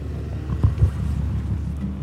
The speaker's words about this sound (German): Also, rauf auf den Krabbenkutter Möwe.